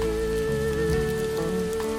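Rain falling in a steady, even hiss for the whole stretch, with sustained musical tones running underneath.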